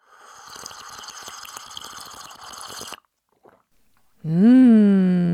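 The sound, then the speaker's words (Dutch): A Jura coffee machine whirs and pours a cup for about three seconds, then stops; after a short pause a loud, sustained tonal sound begins. “Kijk, hier een lekker kopje Jura koffie.”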